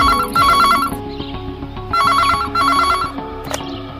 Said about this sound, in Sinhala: ධාරක ගෙදර ෆෝන් එක රින්ගුනේ